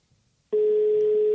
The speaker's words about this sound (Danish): Så ringer vi til Breinholt.